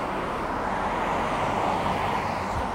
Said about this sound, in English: Sorry, I had to let the daily semi drive by. One second.